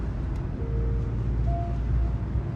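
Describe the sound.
A foreign-made car drives along, its engine and road noise forming a steady, dense low rumble with a faint whine rising above it, even and unbroken throughout.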